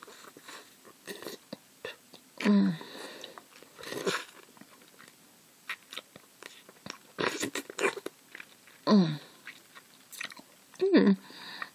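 A creature chewing and eating a man, wet smacking mastication broken by several loud crunchy bursts, with quiet stretches between bites.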